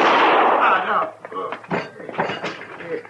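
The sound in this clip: A loud gunshot from a woman's gun in a western drama bursts at the start and rings briefly before people talk over short knocks and shuffles.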